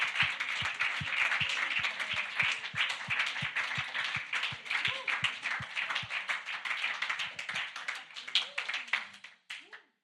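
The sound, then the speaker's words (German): Congregational applause at a church worship evening: dense, sustained clapping with a steady low rhythmic pulse underneath and voices over it, holding loud for most of the stretch before tailing off abruptly near the end. “Lasst uns wirklich Jesus da mal einen Applaus geben.”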